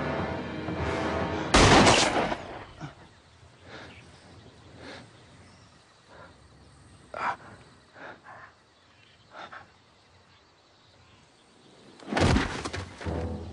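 Gunshots in a drama scene: two loud sharp blasts, one early and one near the end, separated by a long quieter stretch with faint scattered sounds.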